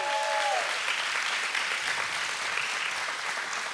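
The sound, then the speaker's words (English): Audience applause for online live streamers: dense, steady clapping from a large crowd holds at an even level throughout. “So let's welcome our online streamers. Come on, let's give them a big hand.”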